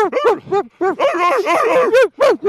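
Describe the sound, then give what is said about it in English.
A human voice imitates a barking dog with a string of loud, throaty woofs and yaps in a choppy, irregular rhythm, some short and clipped, others run together. “It is a pain when dogs bark. So he said, obviously dogs bark. They do bark. Yeah, because sometimes they go,”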